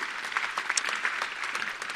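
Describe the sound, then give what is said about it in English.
An audience at a church gathering applauds: many hands clap in a fast, dense patter that stays loud and steady from start to finish. “Would you give them a round of applause as well?”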